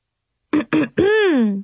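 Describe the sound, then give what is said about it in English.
A voice performs a loud throat clearing: two short, gruff voiced bursts, then a longer drawn-out vocal rasp that rises and falls in pitch before trailing off. “She cleared her throat rather loudly and tried the magic chant again.”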